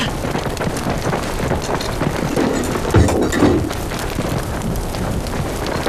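Smoke grenade going off in a radio drama, heard as a dense, steady rushing hiss that fills the whole stretch, with a brief low thud around the middle.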